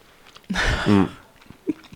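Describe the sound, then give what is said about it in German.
Chewing a bite of soft, fluffy rhubarb cake with crunchy walnuts: one loud crunchy bite, then a few quieter, short chewing sounds. “Und ja, dann dieser Crunch von der Walnuss und dieser ganz feine Teig, der auch so schön süß ist, dass das so den Rhabarber so ausgleicht.”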